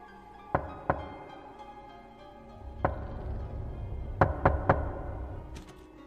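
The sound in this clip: Knocking on a door: a few scattered single knocks, then a quick, sharp burst of three, each crisp and fairly loud against a quiet background.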